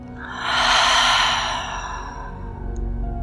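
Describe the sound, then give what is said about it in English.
A deep breath drawn in and let go as a long, sighing exhale during a guided meditation breathing exercise: one broad, airy rush that swells and then eases off, with no talking. “Let's do that two more times. Big breath in. And release.”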